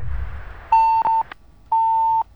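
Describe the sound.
Beeps of a dropped phone line during a radio call-in show: three steady, mid-pitched electronic tones, the first two short and close together, the last one longer, over a faint low hum.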